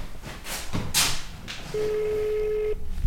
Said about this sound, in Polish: Spróbujemy zadzwonić do córki.